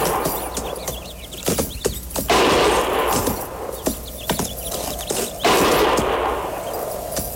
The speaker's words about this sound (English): Didn't sound like no regular shooting.